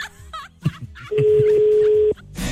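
A telephone call being dialled: a few short tones and sounds, then one steady, mid-pitched ringing tone lasting about a second before cutting off.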